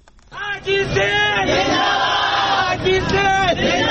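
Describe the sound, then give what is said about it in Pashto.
Transgender protesters in Karachi chant slogans in praise of the Sindh provincial police chief: a crowd of voices shouting in loud, rhythmic unison, the chant rising and repeating throughout. “د اسرار العالم مومند رپورټ د پولیس مشر په حق کې د نرخځیو په نارو پیلېږي.”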